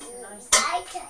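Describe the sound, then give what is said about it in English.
Clank of a big pan being picked up, one sharp metallic knock followed by a brief fading ring, with soft voices just before it. “Let's find a pan. Yeah, pan. Oh, no, there's a pan.”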